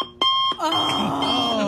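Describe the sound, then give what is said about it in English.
An alarm clock beeps alone with sharp, high-pitched electronic tones. A few short beeps lead into a continuous shrill ringing that holds steady to the end. “That sound is like a nightmare for me. From my earliest memories, that alarm clock sound”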